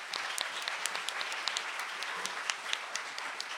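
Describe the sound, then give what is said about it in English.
Audience applause welcoming an author at a literary reading: a dense, steady patter of many hands clapping at even loudness throughout, with no voices standing out. “Please give it up for Dana Spiota.”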